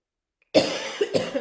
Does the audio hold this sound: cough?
yes